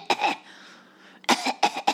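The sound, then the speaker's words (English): A voice imitates a little girl coughing openly over food: one rough cough, a pause, then a quick run of a few sharp coughs, fairly loud and with no other sound. “I watched this little girl just openly cough on the little boy's food next to her. She's just like,”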